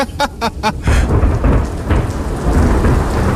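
Heavy rain and thunder from a thunderstorm outdoors: a few short bursts at the start give way to loud rolling thunder over a dense, steady downpour that continues to the end.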